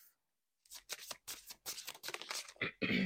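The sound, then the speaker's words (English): Rune cards being pulled from a deck make quick papery rustles and shuffles in a series of short, close bursts for about two and a half seconds after a silent start. “So let's go ahead and pull some runes. So, Holy Spirit, angels, ancestors, God Almighty, can we get a card to start this podcast?”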